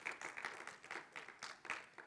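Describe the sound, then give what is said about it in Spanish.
Applause from a church audience during a service, a faint, steady patter of many hands clapping together through the whole stretch. “Démele un aplauso, Señor, claro que sí. No me la dejan aplaudiendo a mi esposa solamente.”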